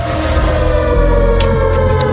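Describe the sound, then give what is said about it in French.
A siren sounds in a disaster-themed ambience, a loud, steady, sustained wail of layered tones that barely changes throughout. “Oh, on est dans l'ambiance de sirène. Oh, ambiance catastrophe.”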